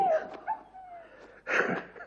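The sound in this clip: A hunting dog whimpering: a thin, high whine at the start, followed by a few short, soft yelps and whimpers at moderate volume.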